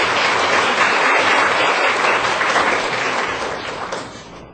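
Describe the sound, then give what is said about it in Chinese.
An audience claps to welcome a guest being introduced, a full, dense round of applause that holds steady before tapering off at the end. “搁一位刘永丽女士，欢迎哈，咱拍拍手”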